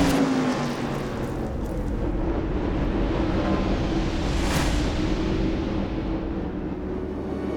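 Race cars roar at North Wilkesboro during the 1996 Tyson Holly Farms 400, a dense, loud engine din that holds steady for the whole clip, with a brighter swell near the middle as a car sweeps past.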